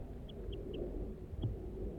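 Four short, high bird calls from an adult near its nest in pitch pine woods. The first three are evenly spaced and a fourth follows after a pause, all faint over a low rumbling background.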